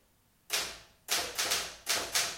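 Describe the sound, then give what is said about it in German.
Keys strike on a Remington typewriter in a slow, uneven series of sharp, crisp clacks. Each clack decays quickly, with a few strokes bunched close together after a single opening hit. “Mr. Landgrens Schreibmaschine? Ja, eine Remington. Was machen Sie denn da? Bisschen tippen.”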